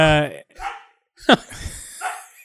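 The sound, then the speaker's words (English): A dog barking, one short sharp bark breaking in among people talking. “He just needs to stop barking. I mean, I think he wants to be on the podcast too. Maybe he wants to get some dog listeners.”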